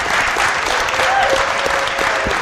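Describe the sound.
An audience applauding to welcome a performer's parents on stage: dense, steady clapping that continues without a break, with a voice faintly present underneath.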